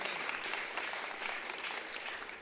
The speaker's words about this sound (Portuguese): eu quero uma salva de palmas pra ela